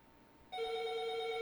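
A telephone rings with an incoming call. After a brief near-silence, a bright electronic ring tone with layered harmonics starts abruptly and holds steadily to the end.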